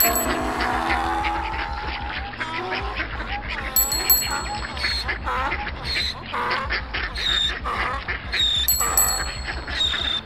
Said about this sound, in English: a donkey juggling ducks rides in on a unicycle that's got a bell attached to the wheel. Yeah, and it sounds like this.